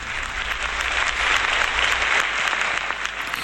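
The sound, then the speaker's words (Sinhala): Concert audience applause welcoming a veteran female singer to the stage, a thick and continuous clapping that swells slightly in the middle, with a low hum underneath and no talking. “අපි හොඳ අත්පොල් සම්ප්‍රසාදයකින් ආරාධනා කරමු වේදිකාවට”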